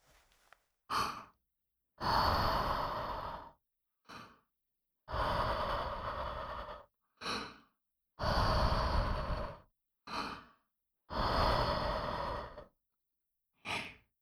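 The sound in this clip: Blowing to cool a hot drink in a mug: four long, breathy blows, each preceded by a short, sharp inhale, in a steady, even rhythm with no talking.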